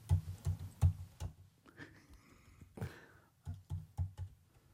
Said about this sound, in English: Let me look it up. Hold on. Let me type. Let me type again.